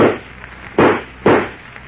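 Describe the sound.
Two gunshots fired at Superman in a radio drama, each a sharp, loud crack with a quickly fading tail, roughly half a second apart after a brief quiet pause.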